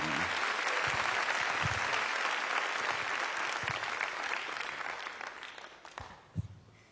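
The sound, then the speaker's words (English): A crowd at the Alive Belfast 2022 gathering applauds to welcome a woman coming up to share her testimony. The clapping is thick and steady, thins out over the last couple of seconds, and a few scattered claps close it. “I'm going to ask you, put your hands together, make welcome Eva as she comes just now.”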